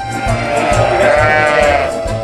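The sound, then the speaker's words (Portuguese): Endangered Langa sheep bleating in a loud, continuous, wavering chorus of overlapping nasal cries, with pulsing low tones underneath and no other sounds. “Escolheu as ovelhas da Langa, em extinção.”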